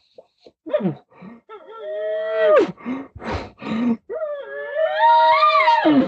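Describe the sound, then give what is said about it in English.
A bull elk moans in a run of breathy, out-of-breath calls. Short gasps and grunts alternate with drawn-out tonal moans, ending in a long, high, wavering cry. “And you'll see, it's almost like he's running out of breath. That's why I like giving those last little, ooh, ooh, ooh, and he'll do that. You'll hear him, and he'll just start moaning.”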